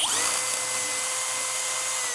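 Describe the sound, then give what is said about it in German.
An electric drill with an 8 mm bit bores out a screw hole in wood, a steady, loud, high-pitched whine that holds without a break for the whole clip, with no talk. “also nehme ich hier so einen 8er Bohrer und bohre das Loch komplett aus.”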